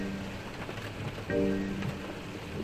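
Rain falls on a March morning as a steady, even hiss of dense drops. A brief low droning hum rises through it midway, then fades back into the rain.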